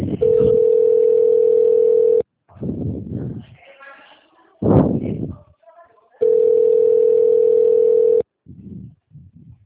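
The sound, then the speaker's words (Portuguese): Telephone dial tone heard while calling a client: two long, steady, mid-pitched tones, each about two seconds, separated by a stretch of speech and shuffling sounds, followed by brief voice-like bursts. “Olha, eu ligando pro meu cliente. Tô ligando.”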